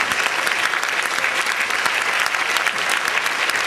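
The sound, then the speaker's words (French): Brisk, dense applause as the public jury stands to be cheered at an event in Reims, a steady even roar of clapping hands throughout the short burst. “Vous vous le jury public, tout d'abord, mettez-vous debout, vous avez beaucoup travaillé. Qu'on vous acclame.”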